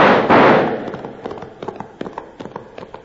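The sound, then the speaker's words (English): Gunfire volley from an ambush on riders on horseback near a ranch: a loud blast opens, then many sharp, irregular cracks of shots follow, gradually thinning out toward the end. “When the sound of hooves echoed in their ears, Rab gave the order to fire. Let them have it! Blast them out of them saddles!”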